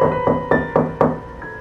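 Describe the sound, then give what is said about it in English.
Five evenly spaced knocks on the door of an old rundown house. Each knock is a firm, hollow thud with no voices between them. “Okay, we can knock, but only because an old rundown house like this has gotta be empty.”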